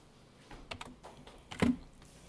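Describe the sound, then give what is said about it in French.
Soft typing on a computer keyboard while entering text into a document: a few light, scattered keystrokes, then a louder cluster of clacks, faint overall. “De toute façon, je tape.”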